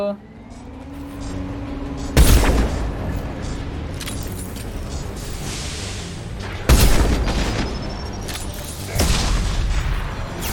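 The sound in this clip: Anti-materiel rifle firing incendiary ammunition in a video game battle against mechs: three heavy booming shots, unevenly spaced, over a continuous rumbling background.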